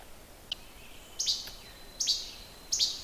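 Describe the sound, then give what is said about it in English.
Least flycatcher calling along a nesting-colony trail in the early morning: three sharp, high, clipped calls spaced evenly apart, preceded by a single faint mechanical click, over quiet background. “It's a leased flycatcher. And on this particular path on our property, we have a big colony of them nesting.”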